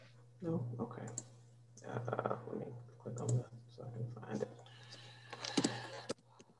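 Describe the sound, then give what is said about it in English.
Sharp computer mouse clicks as someone clicks on a computer to find something, several scattered brief taps over a steady low electrical hum. “Let me click on that so I can find it.”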